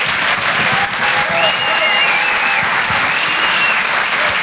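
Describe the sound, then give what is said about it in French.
A theatre audience at a comedy show applauds in dense, continuous clapping that stays loud and even for the whole stretch. “Je vous demande de l'encourager, faites un maximum de bruit s'il vous plaît pour Guillaume Fosco.”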